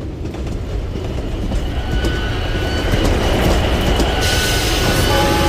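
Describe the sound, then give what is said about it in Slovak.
An express train arriving at a station platform, a loud continuous rumble of wheels on rail with faint clicking, and a high squealing tone joining near the end; no voices. “Na prvom nástupišti pozor. Rýchlik, Zemplín do Margecian a Kisaku prichádza na prvé nástupište.”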